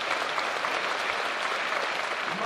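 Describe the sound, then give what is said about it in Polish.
Audience applause at an Andrzejki (St. Andrew's Eve) evening of entertainment and art in Kiszkowo: dense, steady clapping from many hands, continuous and even in loudness, with no voices standing out. “Świadczyły o tym gorące oklaski publiczności.”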